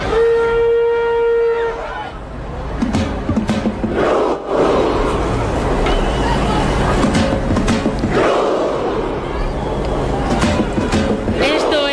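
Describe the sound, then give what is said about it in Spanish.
Football crowd at a World Cup match performing the Viking clap chant: loud massed shouts with sharp, widely spaced claps over steady crowd roar, opened by a long sustained horn-like tone. “El Viking Row, que ya se ha hecho viral en TikTok, que lo hacen los noruegos sí lo y los que no son noruegos, claro”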